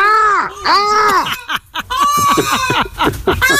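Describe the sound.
A peacock gives loud, harsh wailing calls in repeated arching bursts, a couple at first, then a brief pause, then a faster run of cries.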